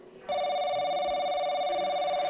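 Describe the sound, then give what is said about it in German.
An electronic telephone ring tone sounds as a quiz-show contestant's lifeline call goes out. It is a steady, bright, buzzy tone that starts abruptly after a brief quiet moment and holds loud and unbroken. “Also da würde ich dann gerne, glaube ich, doch den Joker nehmen und den Dr. Wolfgang Wolte anrufen.”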